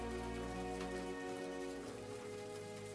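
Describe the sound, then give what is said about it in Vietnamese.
Rain dripping from the eaves onto a brick floor after a short early-season shower, heard as a faint, steady, even patter-hiss with no clearly separate drops, continuous throughout and without talk. “Những giọt nước mưa còn đọng lại trên mái hiên, đang nhỏ từng giọt xuống nền gạch, tạo ra những âm thanh lách tách”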